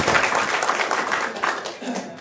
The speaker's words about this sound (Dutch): Laten we ook eens een keer voor jou klappen.